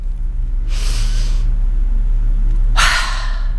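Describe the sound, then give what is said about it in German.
Two loud, airy breaths, heard alone during a breathing exercise with deep breaths in and quick breaths out. Each breath is a broad hissing rush, spaced well apart over a steady low hum. “Und ich atme 7-mal tief ein und jedoch schnell ausatmen. Also so.”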